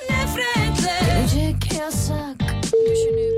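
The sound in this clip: A steady telephone ringback tone sounds during a phone call. It starts near the end as a single sustained, even tone after a stretch of louder music and voices.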